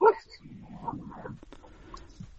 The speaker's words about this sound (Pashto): دا خو سپی غاپی ها او بس